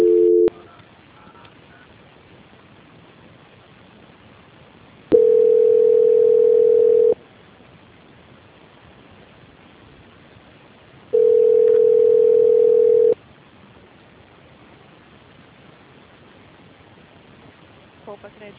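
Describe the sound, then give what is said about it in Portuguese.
Telephone ringback tones sound on a line while a call is being transferred: two long, steady, mid-pitched tones of about two seconds each, with a short tone at the start and faint line hiss in the silent gaps. “fica na linha mais um minutinho, que eu vou transferir você agora, o pessoal vai te atender. Demora um minutinho só, tudo bem? Tudo bem. Transferência.”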